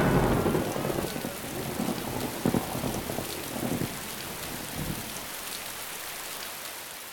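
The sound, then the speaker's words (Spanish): Heavy rain hisses steadily through a thunderstorm, with deep rolling thunder rumbles under it. The storm is loudest for the first four seconds, then eases to a softer, steady downpour. No voices are heard. “Parece que es una tormenta.”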